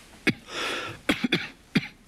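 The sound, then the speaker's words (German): Harsh coughing from a person who may be infected with a virus, several sharp separate bursts with a breathy rasp between them, loud and alone. “Dein Husten.”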